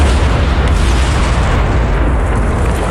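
A deep, continuous rumbling roar from a mine explosion in mountain country, heavy and steady from start to finish with no separate blasts and no voices.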